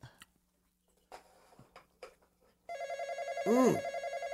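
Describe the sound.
An electronic telephone rings with a loud warbling pulse that starts partway through, after a few brief scattered sounds, and keeps repeating steadily to the end.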